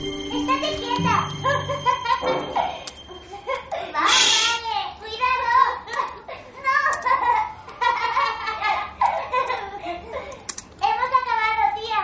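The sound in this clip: Typing on a laptop keyboard in a hotel room while little girls play, with light key clicks running under lively children's voices and chatter throughout.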